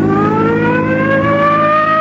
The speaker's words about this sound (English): Come on, hit your siren.